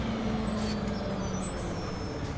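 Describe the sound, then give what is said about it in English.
A Greyhound bus squeals to its final stop with air brakes. A few sharp high hissing bursts rise over a steady, loud engine rumble. “the Greyhound squealed to its final stop. He stepped off the bus”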